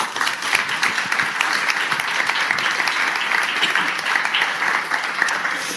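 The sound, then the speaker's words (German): A live audience gives a steady round of welcoming applause, dense clapping at an even loudness for about six seconds with no talk over it. “Ich bitte um einen freundlichen Begrüßungsapplaus jetzt.”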